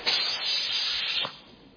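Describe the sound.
A voice imitates a small turtle hissing, giving a breathy, steady hiss of over a second that cuts off and trails away, heard alone.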